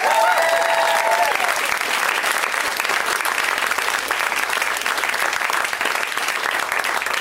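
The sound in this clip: Loud, sustained audience applause from a live crowd, a dense steady clatter of many hands clapping throughout, with no voices standing out.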